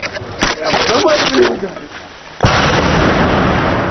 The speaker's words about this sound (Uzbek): Bu 14-may kungi yozib olingan ovoz, o'q ovozlari edi